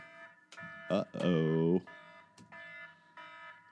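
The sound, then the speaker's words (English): An electronic alarm reminder to take an antibiotic plays a repeating pattern of steady, bright tones, with voices talking over it and one louder burst in the middle of the alarm. “Sorry, that's my alarm to take my antibiotic.”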